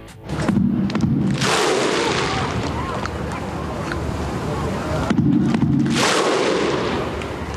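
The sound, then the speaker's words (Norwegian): Several thousand Icelandic football fans perform the Viking clap chant to welcome their national team home. A loud, dense crowd roar carries heavy thudding hits and deep collective shouts that swell near the start and again later. “Og vi kan jo høre hvordan det hørtes ut når flere tusen islendinger hadde samlet seg for å ønske landslaget velkommen hjem.”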